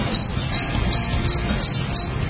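Crickets chirping, played as a signal that phone lines are open: six evenly spaced, high, thin chirps pulse over a soft, steady low rumble.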